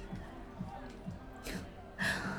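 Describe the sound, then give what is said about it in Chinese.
A child sobs quietly with hiccuping gasps, making a series of short, jerky catches of breath at a fairly regular pace. Louder breathy bursts come toward the end. “怎么哭这么委屈啊，都哭得一抽一抽的啦。好了好了，别慌，缓一下，深呼吸。”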